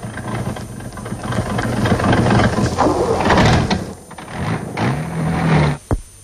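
A car engine is cranked after standing in the cold, making rough, churning mechanical noise with whining tones that rise in pitch, then cutting off abruptly near the end.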